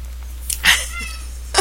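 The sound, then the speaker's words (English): A pet cat meowing during its usual restless evening spell, a few short, high cries spread over under two seconds, fairly soft above a steady low hum. “that is my cat Thurblig, who is going through his usual, every evening he starts meowing for no reason whatsoever and running across the room”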